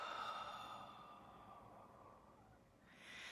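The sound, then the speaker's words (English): Slow, soft breathing: one long drawn-out breath gradually fades, then the next breath begins at the end, faint and with no other sound. “Inhale and exhale.”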